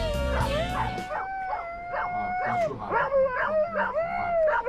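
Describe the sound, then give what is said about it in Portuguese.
Several dogs howl together in long, wavering, high-pitched tones, broken by short yips and whimpering cries that repeat throughout, steady and fairly loud. “Tudo essa cachorrada toda aí da Ana Maria Brava.”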